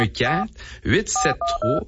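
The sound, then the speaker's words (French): Telephone keypad tones as a number is dialed: three short, steady electronic beeps in quick succession follow a stretch of talking, with a voice continuing over them. “Certains, on va l'appeler, on va utiliser le téléphone.”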